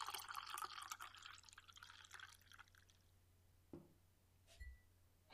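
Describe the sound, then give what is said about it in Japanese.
Liquid is poured into glasses: a faint, steady splashing trickle for a few seconds, then a few isolated drips in near silence. “お待たせ、今注ぐね。はい、これは君の分、そしてこれが私ので、”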